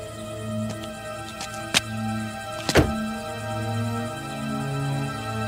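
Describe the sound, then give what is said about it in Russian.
A car door opens as a man steps out of a car stopped on the roadside, giving two sharp clunks, the second louder, over a steady low hum. “Саня выключает радио, останавливает машину на обочине, смотрит на Колю. Отлить не желаешь? Выходит из машины.”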